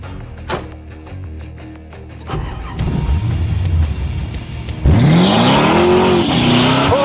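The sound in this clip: A car engine accelerates hard with a nitrous boost, revving in climbing pitch. The engine roar swells, then jumps louder midway as a rising whine sweeps upward and keeps building.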